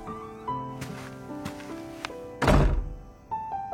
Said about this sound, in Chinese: 他转身走向房间，刷卡开门。